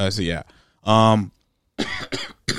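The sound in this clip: A few loud, phlegmy coughs come in separate rough bursts from someone dealing with phlegm, with short pauses between them.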